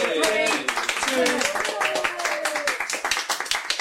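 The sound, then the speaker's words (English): A studio audience cheers and claps: dense, brisk applause with whooping, shouting voices layered over it, and the clapping grows more distinct toward the end. “So if we could get you guys to cheer again and build up the atmos, okay?”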